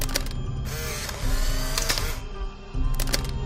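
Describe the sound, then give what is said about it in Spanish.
A Polaroid camera takes instant photos for a forensic report, with mechanical whirring and clicking in sustained motorized bursts. The louder stretches run about a second each, separated by quieter mechanical noise, and no one speaks. “Abre un cajón y coge la cámara Polaroid con la que se hacen las fotos para completar el informe”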